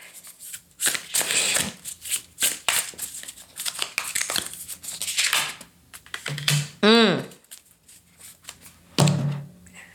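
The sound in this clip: A deck of oracle cards being shuffled, with many rapid riffling and slapping bursts in uneven rhythm alongside intermittent talking and a brief tonal chirp near the end.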